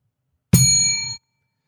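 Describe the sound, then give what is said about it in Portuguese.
A small bell chime used as a sound effect: one bright metallic ding with a sustained ringing tone that cuts off abruptly after less than a second. “Sininho, por favor.”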